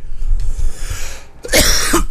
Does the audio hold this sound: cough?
yes